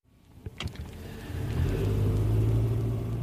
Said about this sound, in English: I'm driving through the lush and green looking Manawatu.